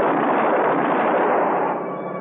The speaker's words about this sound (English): Shoot him. You bet I will.